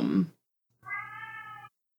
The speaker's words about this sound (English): is that your cat?